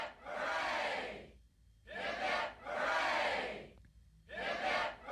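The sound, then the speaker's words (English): A crowd gives three cheers for Captain Cook, shouting hooray together in several loud, broad bursts with short pauses between them. “Three cheers for Captain Cook.”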